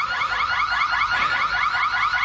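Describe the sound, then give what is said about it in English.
Electronic alarm sounding loudly on its own: a continuous, rapidly warbling high-pitched siren-like tone that pulses evenly without pause. “That alarm I should have told you at the top to get you to clear the room in case there were any old or infirm people who hadn't built up an inoculation”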